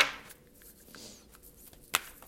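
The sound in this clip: Fairy-themed oracle cards being shuffled by hand: a papery riffling burst at the start, soft card rustles through the middle, then sharp flicking snaps near the end. No voices are heard.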